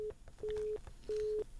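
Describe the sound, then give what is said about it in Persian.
Telephone tone after a call is cut off: faint, steady beeps of one pitch with short gaps between them, with the end of one beep followed by two full ones. “قطعشت بخیالم یک تلفن قطعشت. بله کل تلفن قطعشت آقای تایریا. یک بله تنمس قطع شد.”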